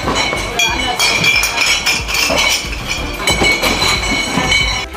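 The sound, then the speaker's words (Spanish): Bottles clink inside the bar counters at Oktoberfest in Munich, a dense, continuous jangle of glass on glass with a busy din and murmuring voices mixed in. “Son ruidos de botellas dentro de los mostradores, no de las carpas, botellas de las que van a beber luego esa cerveza que corre a raudales allí en el Oktoberfest.”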